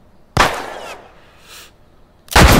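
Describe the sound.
Gunfire from a weapon in a video game: a loud crackling burst of about half a second, a fainter burst after it, then another loud burst at the end.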